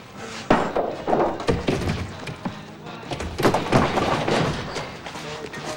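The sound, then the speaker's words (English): A stuck door between a workshop and a shop being tried, giving a series of dull thumps and knocks with rattling, irregular and fairly loud throughout. “tries the door from the workshop to the shop, but it is stuck.”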